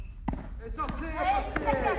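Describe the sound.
A ball bounces a few times on the court during a children's tennis lesson. Each bounce is a short, sharp thud, and voices talk over and between them.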